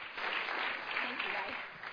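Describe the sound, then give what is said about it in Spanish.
An audience gives a round of applause, a soft continuous clapping wash with voices talking over it. “Si le puedes dar un aplauso. Round of applause, please.”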